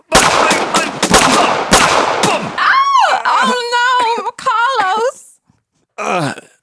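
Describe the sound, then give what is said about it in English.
Gunshots ring out in a staged duel, a quick string of sharp, loud cracks, then a voice cries out and groans in wavering, strained tones before falling silent. “It's like 10 steps. And then turn back and shooting. And shoot.”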